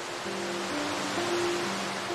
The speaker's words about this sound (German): das immer lauter und lauter wird. Trotz der tosenden Lautstärke übt das Rauschen eine angenehme, beruhigende Wirkung aus.